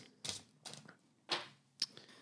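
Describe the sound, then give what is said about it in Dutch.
Discussion cards are shuffled during a conversation: four short, faint, papery rustling bursts with brief gaps between them. “Ik schud de kaarten weer.”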